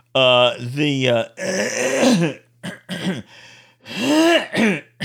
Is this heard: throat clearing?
yes